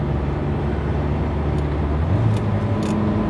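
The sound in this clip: Steady low engine and tyre roar of a car driving on a road as it prepares to overtake, a loud, unbroken rumble with faint brief higher hisses near the end.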